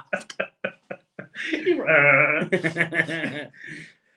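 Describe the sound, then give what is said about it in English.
A person imitates a sheep's bleat, giving a wavering, nasal, vibrato-laden "baa" after a few short clicks and breathy bits, then a string of choppy, chuckle-like voiced bursts that trail off. “A sheep impression. I like a sheep now, I said.”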